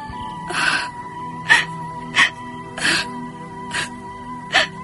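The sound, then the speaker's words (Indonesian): A girl sobs in short, breathy, gasping bursts. Six fairly faint catches of breath come in an uneven rhythm. “Tiba-tiba gadis itu menangis tersedu-sedu.”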